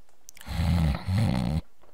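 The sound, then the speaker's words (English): A person snores soundly: two low, rumbling snores in quick succession, fairly faint and with no other sound around them. “Bon Bon lowered the book to see Lyra snoring soundly”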